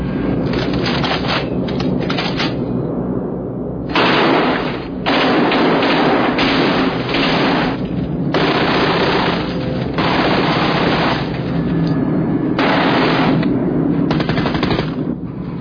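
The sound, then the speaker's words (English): Machine guns being test-fired: loud, rapid gunfire in several long bursts separated by short pauses, with a steady low rumble underneath throughout. “Okay, let's test our guns.”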